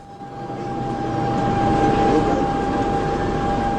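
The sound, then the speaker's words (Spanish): Train at a railway station: a low rumble swells to a peak midway and then holds, with a steady high whine running through it. “Usted se encuentra en la estación de Recuerdos en Recuerdos. Próxima estación,”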